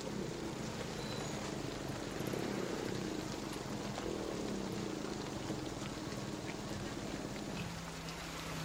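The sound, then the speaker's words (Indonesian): Rain falls by a roadside in a steady, even hiss that stays soft and continuous throughout, with no voices. “Nak, sekarang kan sedang hujan. Kalau kita terus berjalan, nanti kita akan basah.”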